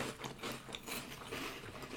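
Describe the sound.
Faint crunching as someone bites into a crunchy butter ball corn puff snack, a few soft, brittle crackles blending into chewing.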